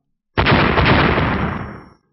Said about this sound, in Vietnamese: Một tiếng nổ mạnh kinh thiên động địa, không gian xung quanh vỡ vụn toàn bộ.